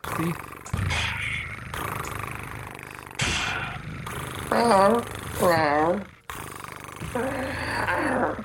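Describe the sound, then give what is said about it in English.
A human voice imitating a cat: breathy hisses followed by wavering, rumbling purr-like vocal sounds, loud and close, with ordinary speech around them. “I can hiss. I'll be the cat. I think I'll purr as well.”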